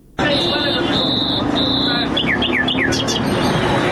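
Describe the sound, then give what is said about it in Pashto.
Wild birds call at a bird market in Kandahar: three long, steady, high whistled notes, then three quick downward-sliding chirps, all sharp and loud over a busy background. “دا د کندهار شهر په منځ کې د وحشي مرغانو د پیر او پلور بازار دی دلته پلسکونه بیلابیل ډول وحشي مرغان لکه بلبلان جلان زرکی میناوی او نور”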